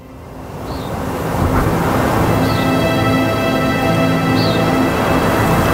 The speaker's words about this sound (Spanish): El viento sopla despacio. Se lleva la tierra seca y trae más, llena de ese olor a orines que tiene el polvo de los caminos.